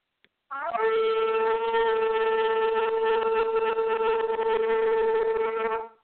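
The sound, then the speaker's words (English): A shofar is blown during a church service in one long, steady, buzzy horn blast that holds its pitch for about five seconds before cutting off. “We're going to sound the shofar.”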